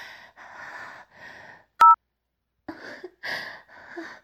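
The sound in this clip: A phone call hung up: one sharp click with a short, loud two-tone beep sounding alone, set between stretches of breathy vocal sounds.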